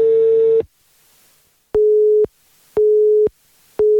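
A telephone busy signal sounds after a call to a wrong number. A steady mid-pitched tone pulses on and off about once a second, giving four beeps with the first and last cut short. No one speaks.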